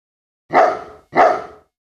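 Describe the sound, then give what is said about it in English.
Two sharp, loud dog barks in quick succession, each with a bright attack and short tail, heard alone as a word cue in an English vocabulary lesson. “Dog.”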